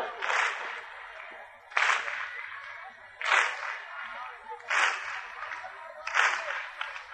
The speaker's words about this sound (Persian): عمتون کف بزنید، محاسن سفیدای مجلس من دستشون رو میبوسن، امشب به عشق ابوالفضل کف بزنید.